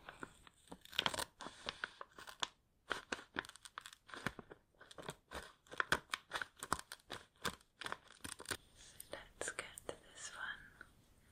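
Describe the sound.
Scissors snip open a face mask packet, with many crisp crunching cuts and crinkly tearing of the wrapper in an irregular rhythm, mixed with soft whispering.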